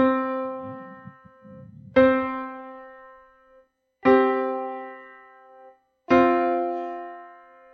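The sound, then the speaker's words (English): Four consonant musical notes ring out one after another, about two seconds apart. Each is a clear, rich harmonic tone that starts sharply and slowly fades before the next one sounds. “So those notes, they fit. They go together. They're consonant.”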